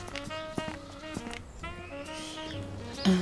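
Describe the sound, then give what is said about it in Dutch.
A few footsteps walk toward house number 15 along a street of houses, sounding as soft, evenly spaced clip-clopping steps over a steady tonal background. “Ik loop nu naar huis nummer 15.”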